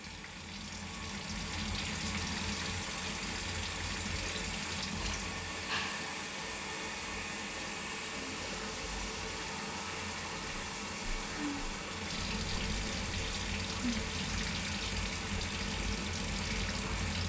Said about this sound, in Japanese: あとは流すだけだね。これも目をつぶっていてね。